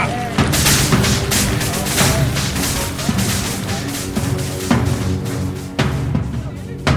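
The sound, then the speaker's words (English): Soldiers fire a rifle volley: heavy, sharp gunshot blasts repeat at intervals over a continuous roaring wash of noise, loud throughout. “Open fire.”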